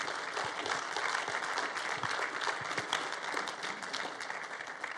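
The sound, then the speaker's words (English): A church audience claps to welcome first-time visitors during a morning service. The applause is fairly faint, steady and continuous, a dense patter of many hands that holds throughout without a clear peak. “And we do that around here by clapping for you guys.”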